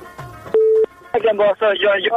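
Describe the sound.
A telephone call connects on a call-in radio show: a brief steady tone sounds, then a voice comes through the phone line, speaking in bursts.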